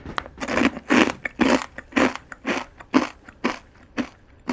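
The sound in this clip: Crunching on Japanese rice crackers (okaki), a spicy snack like crushed kaki-no-tane, eaten together with konpeito sugar candies. Many sharp, brittle crunches come in a steady chewing rhythm.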